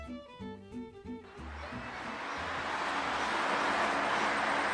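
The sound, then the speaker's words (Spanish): Traffic on a very busy road builds into a dense, steady rushing roar that swells gradually louder, following a few short tonal notes at the start. “Sí, este es el sonido de una carretera muy transitada.”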